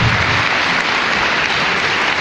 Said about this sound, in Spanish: Un aplauso al Señor, ¿eh? Un aplauso al Señor